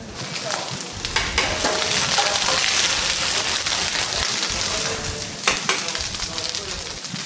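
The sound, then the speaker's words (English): Broth, rice and saffron sizzle loudly as a chef stirs paella in a restaurant in Valencia, Spain: a dense, steady hiss broken by a few sharper scraping bursts. “That's the sound of a chef turning some broth, rice, and saffron into a Spanish culinary treat, paella.”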